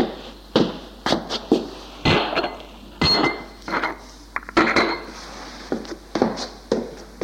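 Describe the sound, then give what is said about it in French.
Dishes and cutlery clink as someone prepares coffee. Many sharp, irregular clinks and knocks of crockery and metal sound one after another, with no talk. “Il va préparer son café car la logeuse ne vient plus le lui apporter.”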